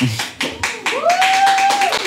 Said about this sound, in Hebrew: בשבילי, אתם יכולים למחוא לו כפיים בשבילי?